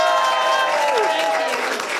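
Audience applause welcoming a comedian to the stage: dense, continuous crowd clapping that holds steady from start to finish, with a faint tonal sound riding over it.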